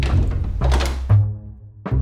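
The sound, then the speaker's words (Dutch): A door is opened with a few heavy, dull thunks spaced unevenly, each short and low, with no voices. “Ja, ik doe open.”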